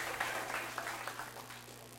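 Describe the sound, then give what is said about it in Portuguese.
Applause from a church audience, a steady, fairly faint wash of many hands clapping together without any talk over it. “Fecha o parênteses aí, os casados, e dá um aplauso ao Senhor.”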